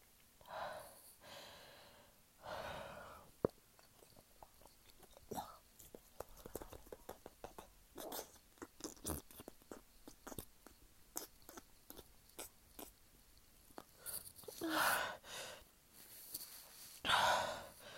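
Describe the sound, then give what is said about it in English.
Heavy breathing as someone catches their breath: loud, ragged breaths at the start and again near the end, with soft clicks and rustles between. “Let me catch my breath.”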